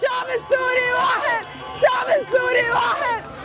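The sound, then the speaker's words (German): A large street crowd chants in Arabic a slogan that the Syrian people are one, many voices shouting loud, rhythmic, repeated phrases over a constant roar of hubbub. “Und hier in dieser Zuspielung hören wir die Menschenmengen auf den Straßen auf Arabisch rufen, das syrische Volk ist eins.”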